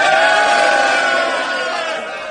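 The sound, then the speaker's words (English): A crowd cheers after a baseball game marking a manager's 1,000th win, a dense, loud roar of many voices that holds steady and eases slightly toward the end. “So a big cheer for him after the game last night.”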